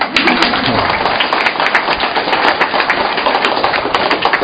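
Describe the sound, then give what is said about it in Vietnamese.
Audience applause at a Vietnamese-language Christian sermon: a dense, even patter of clapping that fills the whole span at steady loudness. “Chính vậy tôi bảo anh chị em là vỗ tay lần thứ 3.”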